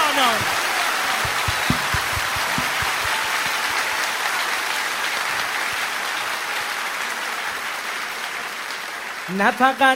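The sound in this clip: Crowd hand clapping at a Persian-language religious celebration honouring Hazrat Zahra, sustained and dense like steady rain, with voices audible at the start and again near the end.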